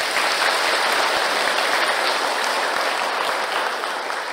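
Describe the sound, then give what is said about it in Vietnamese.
Applause from an audience at a Buddhist dharma talk given by a nun: dense, steady clapping that stays loud throughout and eases off only slightly near the end, with no talk. “Nghe cái tiếng vỗ tay cũng là tai nghe âm thanh.”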